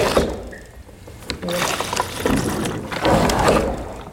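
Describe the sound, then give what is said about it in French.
Liquid gurgles and splashes as a hand pump draws it up a suction rod from a can and pushes it into a tank, coming in a few uneven, rushing surges. “On ouvre le bouchon, on vient plonger la tige d'aspiration dans le bidon. Et ensuite, on actionne la pompe et ça fait transférer le liquide de là à la cuve.”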